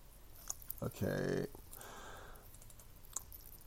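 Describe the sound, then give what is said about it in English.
Computer mouse clicks, a few faint, sharp ticks spread across a quiet stretch, with a brief muffled vocal sound in between. “And I'm sitting here clicking on these”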